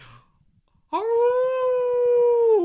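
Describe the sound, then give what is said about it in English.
A person imitates a howling dog with one long, steady, tonal howl that starts abruptly, holds a nearly even pitch for close to two seconds, and then cuts off. A brief faint sound comes just before it. “That was a dog who was going through puberty.”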